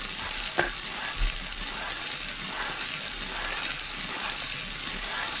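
Numbered balls tumble inside a spinning lottery drum as it turns to draw one, giving a steady, continuous rattling hiss with a couple of small sharp clicks near the start.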